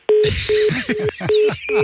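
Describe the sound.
A telephone redials after a dropped call, giving five short, evenly spaced beeps in a quick regular rhythm over dense, busy background noise.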